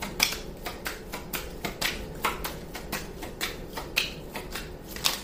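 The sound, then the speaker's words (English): Tarot cards being shuffled, with a rapid run of many crisp papery snaps and riffles at a steady, fairly quiet level and no talk. “Okay. Three cards came out. Oh, wow. Bottom of the deck, Windfall of Abundance.”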